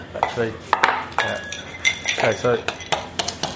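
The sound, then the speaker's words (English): A rolling pin bashes nuts in a bowl, giving a run of irregular knocks and clinks against the bowl, with people talking in between. “So you're bashing it in any old bowl.”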